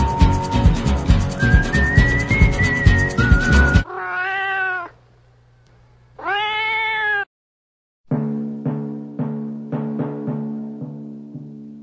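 A cat meows in a radio drama about a cat and a mouse, two drawn-out meows set between passages of rhythmic whistled tones.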